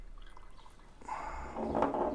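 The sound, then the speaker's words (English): Tea is poured from loose leaves after a very short brew, a soft liquid trickle that begins partway through and continues faintly on its own. “Good, then only a very short brewing, just swirl a little bit the leaves down and make the pour,”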